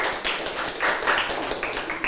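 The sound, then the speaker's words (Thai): Classroom applause as students clap for classmates, a dense, steady patter of many hands that keeps going evenly from start to end. “ปรบมือให้เพื่อนค่ะ”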